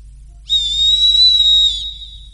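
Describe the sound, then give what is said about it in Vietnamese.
A small whistle blown softly gives a single thin, steady high tone lasting a little over a second. It sounds alone over a faint low hum. “Cung Ngô nói xong, lấy ra một cái còi nhỏ từ trong ngực, thổi nhẹ. Một tiếng còi như có như không vang lên.”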